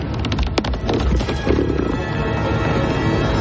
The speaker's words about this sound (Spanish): El resto abandona la ciudad por un puente cabalgando sobre guargos.